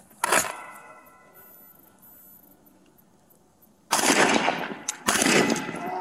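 Police rifle fire aimed at an armed suspect: one sharp crack near the start, then after a quieter lull two louder, longer blasts with ringing tails.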